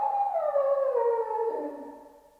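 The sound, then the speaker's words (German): Dogs howling: one long, mournful howl that slides slowly downward in pitch and gradually fades out, fairly faint and heard alone, with no talk. “Schon wieder. Was? Der Hund? Die Ziehharmonika macht ihn verrückt. Nein. Sie heulen heute schon den ganzen Tag.”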